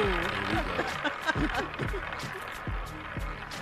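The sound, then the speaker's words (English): A prize wheel spins with a quick, regular series of ticking clacks from its pointer, heard beneath people talking and reacting. “spin the wheel, guys”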